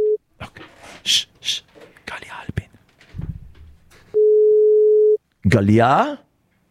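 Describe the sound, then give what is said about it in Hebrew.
Telephone tone while dialing a call: a steady mid-pitched tone holds for about a second between stretches of speech, with a brief tone at the start and a voice right after. “אני רוצה שננסה עוד פעם להתקשר ברשותך”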